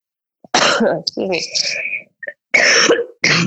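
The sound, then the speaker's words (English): Several rough, loud coughs and throat-clearing bursts from one person come in separate fits with short pauses between them. “excuse me. I'm coughing all over the place.”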